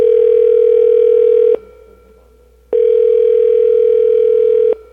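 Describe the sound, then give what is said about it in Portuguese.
A telephone line tone sounds while a call is being placed. Two long, steady, loud tone bursts are separated by a short gap of quiet line hiss. “Deixa eu ligar aqui, por favor”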